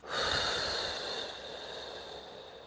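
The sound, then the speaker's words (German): A long breath blows out through pursed lips after being held, a soft airy hiss that starts strongest and slowly fades over a few seconds, with no talking. “Einatmen über die Nase, Luft anhalten und über den spitzen Mund ausatmen.”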